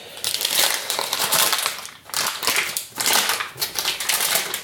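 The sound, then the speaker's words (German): Onions being chopped in a kitchen: dense, crisp crunching and rapid knife taps come in a few long bursts separated by short lulls, fairly loud and without talk. “Ja, die Zwiebel schneide ich hier gemütlich, ihr hört.”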